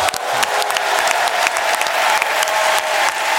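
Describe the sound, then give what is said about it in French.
An audience gives loud, dense applause as a guest is welcomed at a live show. The clapping is sustained and even throughout, with sharp individual claps standing out. “Mesdames et messieurs, faites un tonnerre d'applaudissements pour Benjamin Tranier.”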